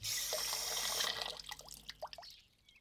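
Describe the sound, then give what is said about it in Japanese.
Tap water runs steadily for about a second while dropped chopsticks are washed at a meal, then cuts off, leaving a few faint drips and light clicks. “あれ、箸落としちゃった。 あらあら、はい、洗ってあげるから。”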